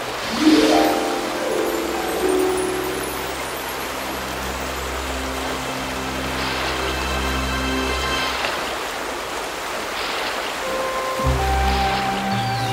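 River water flows in a continuous rushing wash, under soft tonal background music, with no distinct separate splash standing out.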